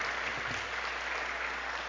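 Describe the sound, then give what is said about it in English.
Audience applause, a dense, even wash of many hands clapping that continues without a break for about two seconds. “Let's just give her a hand of applause. Just thank her.”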